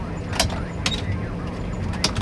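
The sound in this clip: Old beat-up car with failed electronics driving along, a steady low road rumble punctuated by a few sharp creaks and rattles from the worn cabin.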